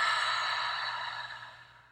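A deep breath is exhaled slowly and steadily, a soft breathy rush that fades over about two seconds and stands alone without talk.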